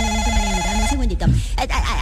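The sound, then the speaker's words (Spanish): A telephone ringing with an incoming call, a bright warbling ring tone filling the first half before it breaks off into voices talking. “Espérame un segundito que me está entrando mal una llamada.”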